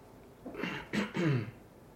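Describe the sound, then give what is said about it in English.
A person clears their throat in a short series of rough, rasping bursts, one longer rasp followed by two quick ones, fairly faint and alone with no talk. “clear my throat a little”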